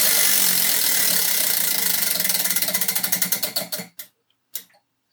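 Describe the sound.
A prize wheel spun for a café mug giveaway clicks rapidly, its ticks gradually spacing out and slowing until it stops, with one more faint click shortly after.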